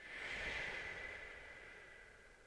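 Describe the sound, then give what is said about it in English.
A single deep, loud exhale during a guided breathing exercise, a long breathy rush of air that fades gradually. No one speaks. “Loud exhale, let it go. Two more times, inhale. Exhale.”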